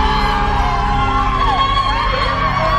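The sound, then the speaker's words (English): A crowd of family and friends cheers at an airport terminal as a daughter arrives home. Raised voices and shrill, wavering whoops form a loud, continuous wash with no pauses. “Kareen anxiously waits to see her daughter exit the airport terminal. And suddenly, an eruption of cheers.”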